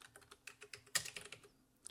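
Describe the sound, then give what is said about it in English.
Typing on a computer keyboard, a quick, uneven run of faint clicking keystrokes with one slightly louder press partway through. “And I'm going to type in Autumn Alley.”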